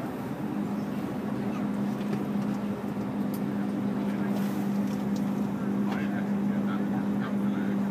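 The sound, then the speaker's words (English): A fast-spinning propeller, with the right-hand one now running, gives a steady, loud, low drone thick with broad rushing noise that holds an even level throughout. “Now it's spinning fast. Now the right one's on.”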